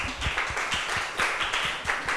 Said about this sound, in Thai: ว้าวลึกซึ้งมากปรบมือให้เพื่อนหน่อยค่ะ